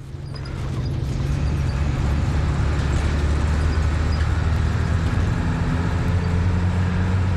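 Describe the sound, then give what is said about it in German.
A bus labours up serpentine mountain roads in the valleys between Kathmandu and Pokhara, heard from inside as a loud, steady low engine drone that swells in at the start and then holds, with no voices. “Ganz mühsam quält sich ein Bus, in dem wir sitzen, hier jetzt die Serpentinen hinauf, in den Tälern, die zwischen Kathmandu und Pokhara liegen.”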